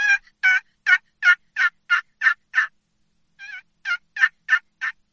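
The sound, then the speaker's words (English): Turkey yelps played on a wooden box call, with the lid kept in contact and slid back and forth. A quick, even run of eight raspy, high yelps, a brief pause, then another rhythmic run, loud and clear with nothing else. “if you keep constant contact with the lid and your box, the main part of your box, don't lift the lid up, but you want to go back and forth with it, it's going to sound like this.”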